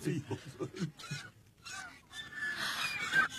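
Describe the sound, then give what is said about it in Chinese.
Swans call as they land on a palace roof, giving loud, nasal honks with a goose-like, reedy tone. The calls repeat in an irregular series and stack into a dense, bright chorus toward the end. “天鹅， 天鹅落到翠微宫宫顶上了。”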